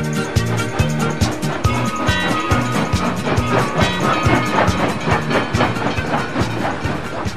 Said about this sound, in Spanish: El tren se va, el tren se va, el tren se va.